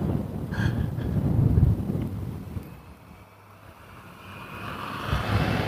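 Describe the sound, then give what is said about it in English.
Brisk outdoor wind blowing into the microphone makes a gusty, low rumbling roar. It is strong at first, eases for a stretch in the middle, then swells again toward the end. “The wind is in my face. I have to keep the bill of my cap down, or I'll lose it and the microphone.”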